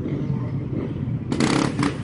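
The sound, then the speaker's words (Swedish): Enduro motorcycles pass with riders doing wheelies. Their engines make a steady rough roar that swells into a louder, brighter burst of noise partway through. “Nu kommer en massa endurohojar här på slutet och sen är polisbil.”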